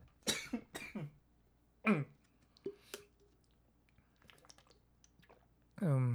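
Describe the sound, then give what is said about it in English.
A person drinks water, making a few soft gulping and swallowing sounds with small mouth clicks between them. The sounds are quiet overall, and a voice starts speaking right at the end. “Wait, let me just drink water.”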